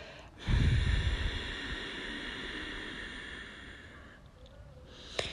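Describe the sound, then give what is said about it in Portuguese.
A long exhale during a guided breathing exercise begins as a strong, breathy rush of air and then tapers gradually over several seconds, ending in a brief sharp intake near the end. “Expira todo o ar.”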